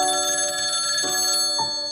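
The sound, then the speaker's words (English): A telephone rings with a steady, bright electronic warble that holds for the whole moment without a break, moderately loud and with no voices over it. “That's when his phone rings.”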